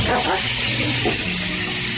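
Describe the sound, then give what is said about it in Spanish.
Garlic sizzles in hot fat in a pan while cooking a traditional Colombian paisa dish: a steady, bright hiss with a crackle that runs unbroken and alone throughout. “Entonces, en esa grasita que está caliente vamos a poner un poquito de ajo.”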